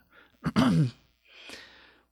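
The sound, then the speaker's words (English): A woman clears her throat once, a short rasping voiced burst followed by a softer breathy exhale, brief and alone. “clears her throat.”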